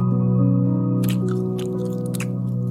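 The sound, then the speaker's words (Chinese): Someone munches on grilled fish and candied fruit, with a few moist, crunchy chewing bites layered over sustained tonal background music. “我拿一点烧鱼跟蜜饯给您吃。”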